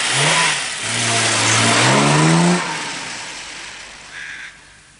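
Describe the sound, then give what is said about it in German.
A car engine revs and pulls away up a slope in a cloud of dust, its tone climbing in pitch for a couple of seconds before the sound drops off and fades. “Der Bullige, das Mädchen, der mit der Hakennase und ein weiterer Helfer klettern bald ins Auto, das in einer Staubwolke verschwindet.”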